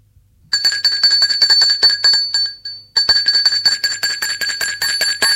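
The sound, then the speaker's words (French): An electric bell rings at the door of an office in a factory. It gives a loud, rapid, continuous trill in two bursts, with a short break between them. “L'on a sonné. Il sort de son bureau pour aller ouvrir.”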